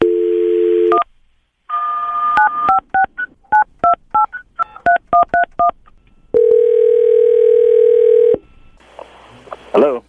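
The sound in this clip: Touch-tone keypad beeps dial a telephone number: a brief dial tone, then a rapid string of short two-note DTMF tones, followed by a long steady ringback tone and the start of another.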